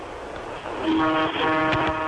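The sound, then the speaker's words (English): A Peterbilt truck's air horn gives one long, loud blast: a deep, steady, harmonic-rich tone that starts partway in and holds to the end with only a brief wobble. “give a little toot on the air horn, would you?”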